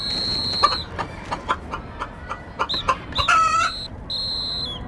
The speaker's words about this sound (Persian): دیگه اینجا نیاین، آخه کی با خودش مرغ میاره شهر بازی ها؟